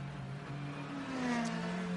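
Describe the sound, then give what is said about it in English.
A Ferrari race car accelerating out of a pit stop gives a steady engine whine whose pitch climbs gradually, heard moderately faint and without talk over it. “Off and away, Albert Costa goes in the Conquest Racing Ferrari.”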